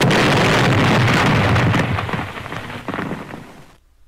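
Fake bomb explosion sound effect: a loud, broad roar with a heavy low rumble that holds for about two seconds, then fades and cuts off abruptly.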